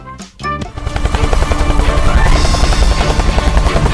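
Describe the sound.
Helicopter taking off: a loud, steady roar of engine and rotors that swells a little after a few brief sounds at the start, with no talking.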